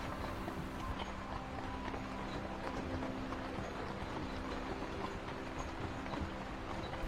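Steady hoofbeats from a horse pulling a ribbon-decorated carriage on a winter ride, a continuous dense clopping that runs throughout with no voices.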